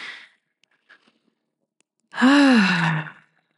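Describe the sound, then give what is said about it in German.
A deep breath: a short breathy intake, then a long voiced sighing exhale that sinks in pitch as it ends. “Und dann werden wir beginnen mit 3 tiefen gemeinsamen Atemzügen.”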